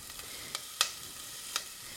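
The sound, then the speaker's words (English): Soft, steady sizzle of onions and garlic frying in a pot for a one-pot lentil, black bean and rice dish, with a few sharp crackles popping above the faint hiss. “It's starting to cook. Now these onions will start to turn what they call translucent, which means they're not solid white anymore.”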